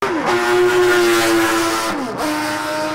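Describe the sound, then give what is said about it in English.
Racing motorcycle engines at a speedway race: a loud, sustained, buzzing engine whine with layered tones, the pitch dropping sharply twice as machines sweep past. “Hear that? That's the sound of Fast Friday's Motorcycle Speedway Racing.”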